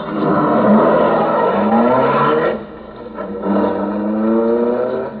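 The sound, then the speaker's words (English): A car engine runs and revs, its pitch climbing in repeated strokes, briefly falls away near the middle, then picks up and pulls on again. No voices are heard over the steady mechanical drone. “Hand me the steering wheel. Climb up front and start driving.”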